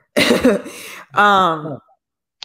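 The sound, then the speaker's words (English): Coughing from someone who has just choked on water: two loud, rough bursts close together, the second more voiced and throaty. “No, I'm coughing because I choked on my water.”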